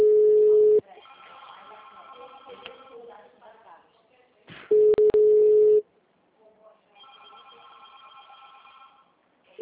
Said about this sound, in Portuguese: O número discado não está atendendo. O número está ocupado.